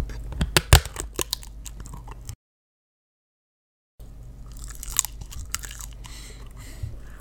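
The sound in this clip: Close-up biting and crunching of food that sticks to the roof of the mouth, in two bursts of crisp, irregular crunches separated by a pause of about a second and a half of silence.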